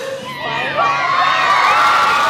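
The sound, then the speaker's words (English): A crowd outside a courthouse cheers and shouts after a guilty verdict in a first-degree murder trial. Shrill whoops and high yells swell louder after a short moment, then hold at a loud, sustained roar. “Outside, the crowd erupted in cheers.”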